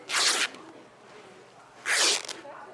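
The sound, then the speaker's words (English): Fabric is torn into strips for the handles of recycled, reusable shopping bags. Two harsh ripping bursts, each about half a second long, are separated by a quieter pause. “Station for tearing the fabric into the sides for the handles.”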